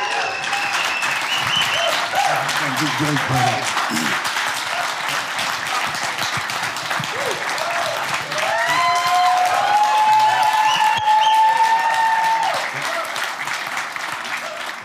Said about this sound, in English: Come on up. Let's give him a good Harbor welcome.